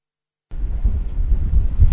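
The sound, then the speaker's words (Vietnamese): Wind blows across the deck of a navy ship at sea in bright sunshine. After a brief silence, a steady, heavy low rumble begins and carries on with some gusty swells. No voices are heard. “tôi đang đứng trên boong của một con tàu thuộc vùng Nam Hải quân giữa cái nắng rực rỡ của vùng biển Tây Nam”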